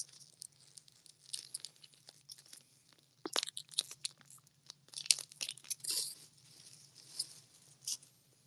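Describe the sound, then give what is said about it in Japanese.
String cheese being pulled apart into strands, heard as a series of soft, quiet tearing bursts with light crinkly texture, spaced unevenly over several seconds with no speech. “裂けるチーズ裂いて食べるわ”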